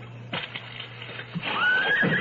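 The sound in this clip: A nervous horse reacts to a struck match with a few short snorts or stamps, then a high, quavering whinny held for under a second.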